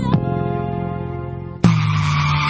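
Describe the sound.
Car tires skidding under hard braking: a steady tonal drone gives way abruptly to a louder, rougher burst of noise that carries on to the end, with no voices.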